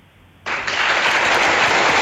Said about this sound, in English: Yes. You've got the applause.